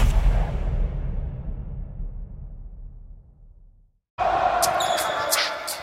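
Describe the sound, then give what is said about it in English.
A basketball is dribbled during a professional NBA game. A broad rush of noise fades away, breaks into brief silence, and then returns as loud, steady arena sound. “Here comes Curry. Step back off the dribble three.”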